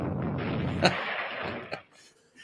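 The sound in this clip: A bomb explosion sound effect: a broad, rumbling blast that slowly decays, broken by two sharp cracks, then fades to near silence.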